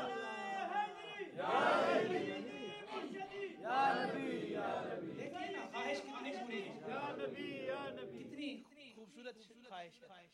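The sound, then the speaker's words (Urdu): A crowd chants the religious slogan Nara-e-Takbeer at a gathering. Loud collective shouts swell in a few bursts among many voices, with talk mixed in between. “محبت کے ساتھ اگر نعرہ لگایا ہی جائے تو آواز بلند نعرہ تکبیر”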